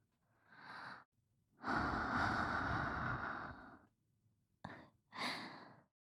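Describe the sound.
A woman blows breath close to the microphone in airy hisses: a short puff, one long sustained blow, a very brief burst, then another short blow, with no other sound.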